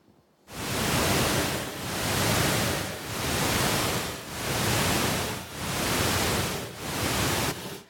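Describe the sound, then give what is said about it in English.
A deep-sleep stimulation sound made of bursts of soft, pink-noise-like hiss, pulsed at a brain-wave rate. The hiss swells and fades in six smooth, evenly spaced pulses about a second apart, steady in loudness and with no voice. “we played the deep sleep stimulating sound that was shown to make them have deeper sleep.”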